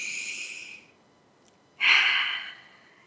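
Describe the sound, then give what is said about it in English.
A deep breath, heard as two long, airy breath sounds separated by a short quiet pause. The second breath is louder and stronger, and no other sound accompanies them. “Another deep breath.”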